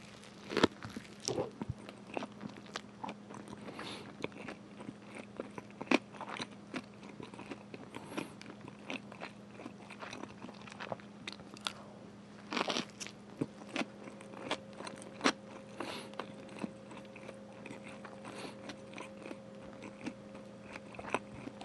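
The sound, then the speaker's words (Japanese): Soft biting and chewing of a thick futomaki sushi roll eaten whole, many small crunchy clicks and moist mashing sounds at a quiet, uneven rhythm, with no talking. “目を閉じて願い事を思い浮かべながら太巻きを丸かぶりして食べきればいいはずです。では、いただきます。”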